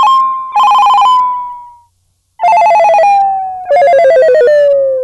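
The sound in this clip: A telephone rings loudly on its own in repeated warbling, trilling bursts, with one short silence partway through.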